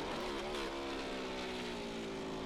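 A pneumatic pit gun spooling up during a left-side wheel change at a race pit stop, its socket breaking off: a loud, steady, buzzing mechanical whine that climbs slightly at first, then holds level throughout.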